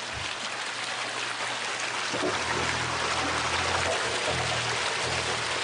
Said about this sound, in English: We manufacture these hydrophones ourselves. And so now, if I use this to listen underwater,